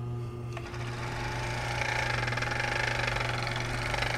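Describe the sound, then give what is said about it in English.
Serger sewing machine, which overlocks and cuts fabric at once, running with a steady, mellow motor hum. Partway through it grows a little louder and settles into a fast, even pulsing chatter. “So I would like to play my serger for you. Turned on. It has a beautiful, mellow sound to it.”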